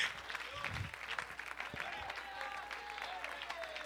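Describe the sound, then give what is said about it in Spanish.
Faint, uneven clapping from a church audience during a worship service, mixed with voices. “Ese aplausito está chueco”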